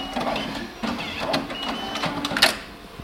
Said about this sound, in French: on récupère donc le QR code reçu via notre site internet et on n'a plus qu'à imprimer sur le support qu'on a déjà préfabriqué.